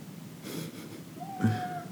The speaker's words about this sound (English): That's my cat.